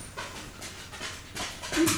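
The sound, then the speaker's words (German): A dog pants in quick, breathy bursts of uneven rhythm, fairly faint and growing slightly louder toward the end. “Aua, mein Hund kratzt mich hier. Nee, hau ab, husch.”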